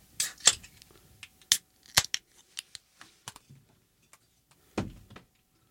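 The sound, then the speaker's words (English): Pull tabs crack open on one-pint cans of Iron Maiden Trooper Premium British Beer, a scattered series of sharp clicks and snaps with quiet gaps between them and a fuller burst near the end. “picked up a couple, a four-pack of Iron Maiden Trooper Premium British Beer. Hello. One-pint cans. What do you say we crack these babies open and see what they taste like, all right?”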